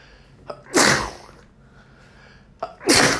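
Two sneezes from one person, each starting with a short sharp intake of breath and ending in a loud, breathy burst, separated by a quiet pause.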